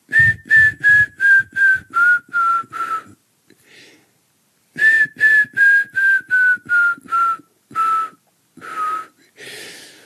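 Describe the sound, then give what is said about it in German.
Whistled imitation of a grey-headed woodpecker call: two clear series of about seven piping notes that fall in pitch and slow toward the end, then a few looser whistles after the second run. “Beim Grauspecht ist es ein ähnliches Gü, aber es fällt ab am Ende und wird langsamer. Es klingt ja so.”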